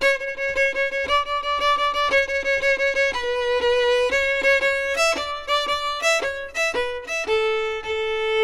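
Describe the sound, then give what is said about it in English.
Violin playing a fiddle tune as a jig in 6/8 time, a lively bowed line of short repeated notes in a lilting triple pulse, heard alone at an even, steady volume. “when I am ready to introduce the jig, which is 6/8 time, I turn Boil 'Em Cabbage Down into a jig, and it sounds like this.”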